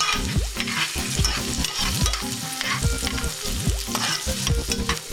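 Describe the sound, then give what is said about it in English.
Chopped onion, one medium onion in rough pieces, stirred as it fries in a pot: a steady sizzle runs throughout, broken by a few scraping stirring strokes at a loose, repeating rhythm. “Then add my rough chopped 1 medium onion. Give it a little stir.”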